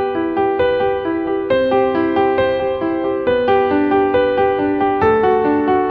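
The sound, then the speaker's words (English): An easy piano melody of broken chords rings out, each chord rippling from its top note down and back up. Even, evenly spaced notes repeat the pattern across four chords at a steady pace and clear volume, with no voices. “Impress your friends with this very easy piano melody.”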